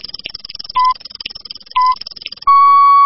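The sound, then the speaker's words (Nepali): Electronic radio time-signal beeps mark the hour: two short, steady, mid-pitched pips about a second apart, then one long sustained tone. A faint, busy background runs underneath the pips. “शुक्लगण्डकी time check”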